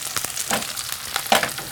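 Sizzling of flour-dusted, mustard-soy-marinated chicken frying in a pan with shishito peppers added at the edge: a steady, crackling hiss broken by a few sharper pops or taps, with no talking.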